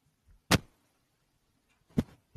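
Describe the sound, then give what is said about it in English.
Two sharp knocks from a microphone wire being moved, roughly one and a half seconds apart. Each is a brief thump that stands out against near-silence. “Don't move your microphone wire, goddammit.”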